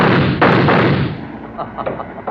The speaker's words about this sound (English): I've got a gun. Then why don't you use it?